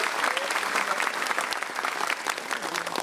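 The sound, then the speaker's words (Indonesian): Studio audience applause at a Kompas TV show, given on request. Many hands clap in a full, continuous, steady burst that fills the whole stretch without pause. “Selamat malam Kompas TV, boleh minta tepuk tangannya dulu?”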